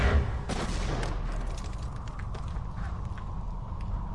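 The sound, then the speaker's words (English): Gunshot blasting the top off an object, a sharp blast near the start over a continuous rumbling roar, followed by a few fainter cracks. “Stand back. I think I can shoot the top off it.”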